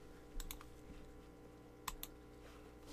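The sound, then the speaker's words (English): Faint keystrokes on a computer keyboard, a few clicks in two short bursts over a steady low hum. “Just type in 2020 and 2021, press enter, and there you go.”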